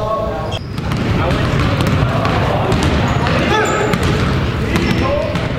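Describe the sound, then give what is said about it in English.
Basketballs bouncing during a boys' basketball practice in the Wrangell High School gym, a dense, steady patter of many overlapping thumps with voices mixed into the background. “Right now, I'm standing here in the Wrangell High School gym, and you can hear the boys practicing behind me for their upcoming game in Haynes.”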